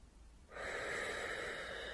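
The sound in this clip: A deep inhalation during a guided relaxation breathing exercise: after a brief quiet moment, one long, steady, airy breath is drawn in and held at an even level until the end, with no voices.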